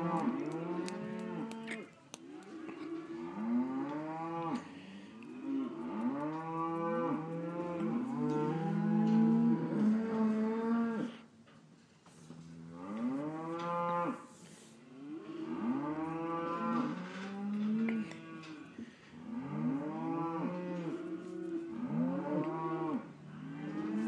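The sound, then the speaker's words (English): A herd of cattle moos constantly as the animals are moved around, with many loud overlapping calls that rise and fall in long drawn-out bellows, filling the whole stretch with barely a pause. “they have a bunch of cattle going crazy.”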